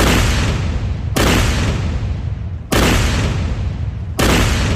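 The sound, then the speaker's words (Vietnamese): Soldiers firing rifle volleys on command: four loud, booming blasts, the first already sounding at the start and the others spaced about a second and a half apart, each trailing off in a long rumbling decay. “Các đồng chí, chuẩn bị loạt ba, nạp đạn. Nạp đạn xong. Chuẩn bị. Bắn.”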